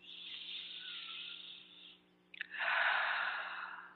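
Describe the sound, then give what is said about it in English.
Deep breathing during a guided prayer with a hand on the heart: one long, airy, hissing breath, a brief pause, then a louder and fuller second breath that slowly tails off. No one speaks. “take that breath of love and gratitude with me.”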